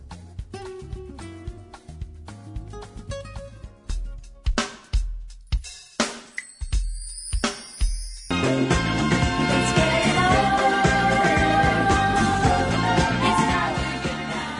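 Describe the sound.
Orchestral Philadelphia soul instrumental from 1974, heard in its full version: a sparse opening of punchy staccato hits and short notes, then after about eight seconds the full band comes in, loud and steady, with strings and rhythm section.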